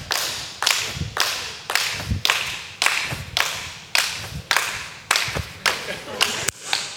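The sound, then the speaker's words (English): An audience at a couples' retreat claps for a game winner in steady unison, many sharp, regular claps repeating at about two per second for several seconds. “Listen to us all clapping. Just keep it going.”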